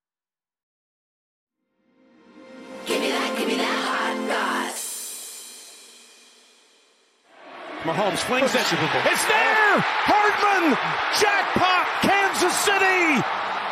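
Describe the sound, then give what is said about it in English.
A stadium crowd of about 65,000 roars at Allegiant Stadium in Las Vegas for the Kansas City Chiefs' final Super Bowl touchdown. A commentator calls the play, then a loud, sustained crowd roar surges and continues under excited talk. “that is the sound of 65,000 people reacting to the Kansas City Chiefs' final touchdown last night at Allegiant Stadium in Las Vegas.”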